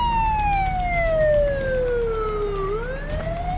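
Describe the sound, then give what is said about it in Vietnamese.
Loud wailing ambulance siren whose pitch slides slowly downward for several seconds, then turns and climbs back up, over a low rumble of traffic. “Tracy nghe thấy tiếng còi hù đang tới gần. Và giây lát sau, chiếc xe cấp cứu lao vụt qua, hướng về phía ngôi nhà Romano.”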